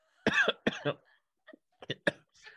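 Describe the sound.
Harsh coughing fit from a person choking in the middle of a conversation: two loud, raspy coughs come first, then several shorter, fainter coughs trail off with gaps between them.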